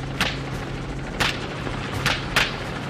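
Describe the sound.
Gunshots are fired from a helicopter during a pig hunt. A few sharp, loud cracks ring out at uneven intervals over a steady, low rotor hum.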